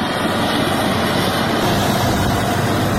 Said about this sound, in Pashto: دا لوډران د اورزګان او قندهار د لوی لاري په رغولو بوخت دي چې لګښت یې دغلته ځایي ملي تجارانو او ملکي خلکو کړی.